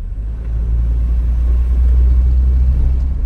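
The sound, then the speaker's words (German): A pickup truck engine rumbles as the truck drives a winding, bumpy mountain road in Jamaica's Blue Mountains. The deep, steady drone stays loud and constant throughout, with no voices. “Mit ihrem Pickup-Truck geht es 1,5 Stunden sehr kurvenreich und holprig durch”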